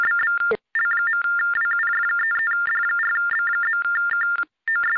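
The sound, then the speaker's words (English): A mobile phone rings with an electronic ringtone, a fast warbling melody that flips between two pitches in repeated phrases. It is loud and steady, with two brief gaps. “Someone on my phone? Wait, hold on a second. Is that my phone?”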